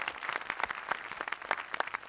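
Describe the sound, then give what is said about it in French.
An audience applauds, a short burst of individual handclaps at moderate volume, crisp and irregular throughout. “On peut vous applaudir, Kevin Cessé.”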